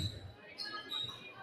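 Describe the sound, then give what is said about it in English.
A basketball dribbled during a women's basketball game, heard as a few soft, low thumping bounces in a steady rhythm, faint beneath quiet arena murmur. “She's dribbling around.”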